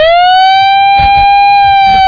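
A siren wails as one loud, steady tone with strong overtones, holding nearly the same pitch throughout after a brief rise at the onset, over a faint low rumble.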